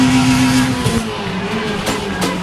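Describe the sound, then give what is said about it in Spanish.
Citroën Saxo VTS rally car engine gives a loud, steady, droning note with a buzzy tone that holds throughout. “Dorsal número 67, ese Citroën Saxo VTS.”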